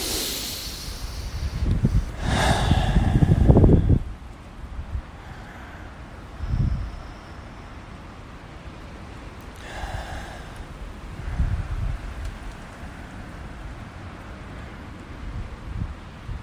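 Deep breaths during a breathing exercise: a long, loud, airy inhale and exhale, followed by a few softer breaths spaced apart, with no talking.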